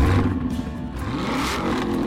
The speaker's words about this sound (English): Tired of your vehicle sounding like this? Want it to sound like this? Or this?